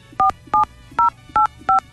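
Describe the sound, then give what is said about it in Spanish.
Five telephone keypad tones enter a password during a phone call. Each is a short, bright two-pitch beep, evenly spaced and fairly loud over a faint hum, with no talking. “Por favor, ingrese su contraseña seguida de la tecla de número.”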